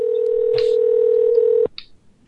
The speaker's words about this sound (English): Well, it'll have to ring. Well, I suppose I do like the part of the show when the phone rings.